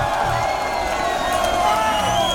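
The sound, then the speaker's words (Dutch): Enthusiastic audience applause and cheering greet a singer performing a summer hit. The crowd noise is dense and loud throughout, with whoops and shouts mixed into the clapping. “Dames en heren, mag je waanzinnig applaus.”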